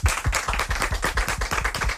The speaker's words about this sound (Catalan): Que esteu preparats per fer de públic i fer molt d'aplaudiments? Sí! Anem a comprovar-ho. Un aplaudiment!